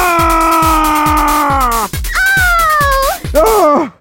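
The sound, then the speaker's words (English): Crow-like cawing from a bird in a video game: three drawn-out, wavering, groaning caws, the first long and sliding down in pitch, over a steady low thumping beat. “Hey, little birdie, are you okay?”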